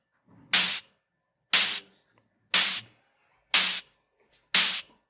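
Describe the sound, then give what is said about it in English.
High-pass filtered synthesizer noise sounds as five short, bright hissing bursts, evenly spaced about a second apart, each stopping abruptly with silence in between. “Also a high pass one. So we have our old noise and our new noise.”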